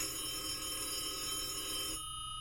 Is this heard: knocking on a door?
no